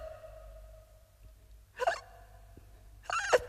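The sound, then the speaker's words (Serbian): A child eating in big, unchewed mouthfuls hiccups twice, about a second and a half apart. Each hiccup is a short, sharp voiced gulp that stands out clearly against quiet surroundings. “Kako to jedeš? Opet štucaš. To je zato što ne žvači.”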